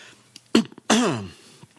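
Phlegmy throat clearing: a short rough rasp followed by a longer, voiced guttural clearing that slides downward in pitch, with quiet background between them.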